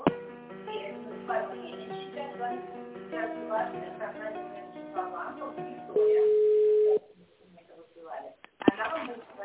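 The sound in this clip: A telephone ringback tone sounds while a call is being transferred to another company: a single steady, mid-pitched beep lasting about a second. People talk on the line before it, and near-silence follows.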